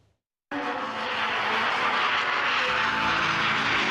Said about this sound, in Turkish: Yerli insansız savaş uçağı bir kez daha test atışı için havalandı.